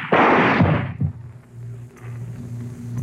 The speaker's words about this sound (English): Why did you waste another bullet?